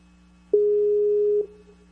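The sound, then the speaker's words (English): A telephone ringback tone on an outgoing call that goes unanswered: one steady, mid-pitched electronic tone about a second long over a low constant hum, then quiet. “Yep, just keeps ringing and ringing and ringing.”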